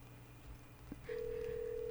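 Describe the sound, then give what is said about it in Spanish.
A telephone call being placed: after a soft click, a steady ringing tone at a single mid pitch sounds alone and holds without a break to the end. “La estoy llamando.”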